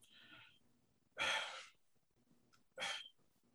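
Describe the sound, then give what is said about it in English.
Heavy breathing from a person: two loud, rushing breaths stand out, with softer, quieter breathing before and between them. “I know you hear me just breathing so hard.”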